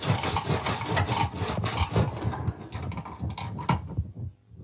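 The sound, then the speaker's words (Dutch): A sharp knife cuts through hard fennel under firm pressure, giving many rough, scraping, crunching strokes in a steady, fairly loud run that fades out at the end. “Die venkel is vrij hard. Dus moet echt... zeer goed aanduwen.”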